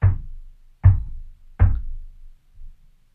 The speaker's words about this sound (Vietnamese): tôi mô tả cái tiếng gõ cho anh chị em nghe. Dừng. Gõ 3 tiếng thế dừng.